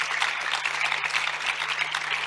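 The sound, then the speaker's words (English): A church audience claps during a sermon: a fairly soft, continuous patter of many hands clapping at an even pace, with no voices heard over it. “You are just clapping as if you are the most guilty person in this room.”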